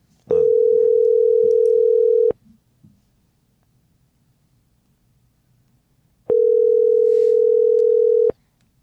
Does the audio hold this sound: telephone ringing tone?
yes

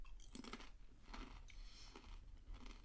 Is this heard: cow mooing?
no

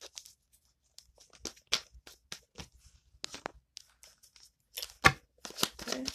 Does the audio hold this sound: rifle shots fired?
no

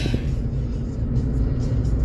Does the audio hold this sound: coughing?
no

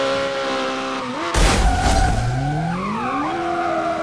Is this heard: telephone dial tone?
no

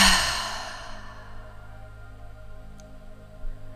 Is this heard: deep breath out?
yes

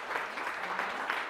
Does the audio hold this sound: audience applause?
yes

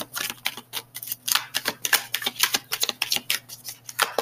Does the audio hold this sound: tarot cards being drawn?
yes

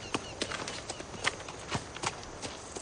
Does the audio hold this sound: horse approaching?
yes

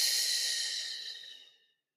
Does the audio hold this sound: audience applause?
no

